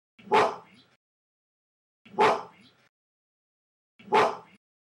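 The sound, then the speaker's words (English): Three harsh barks from a gorilla, each a loud, rough burst that trails off quickly. They are evenly spaced about two seconds apart, with silence in between. “this isn't sound we captured, but this is just sound I put in as comparison. This is the sound of a gorilla barking.”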